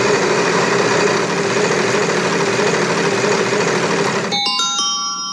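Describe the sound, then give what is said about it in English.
A game-show style wheel-of-topics spinning sound effect: a loud, steady whirring rumble for several seconds that breaks off into a few bright chiming tones near the end, with no talk. “hit the wheel of topics, please. Wheel of topics. Wheel of topics.”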